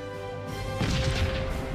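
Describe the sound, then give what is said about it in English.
An explosion in a video game bursts in partway through as a loud, broad crash and rumble over a steady, droning game tone. “I think they should have gotten like different shades of red for that explosion. It doesn't look that great.”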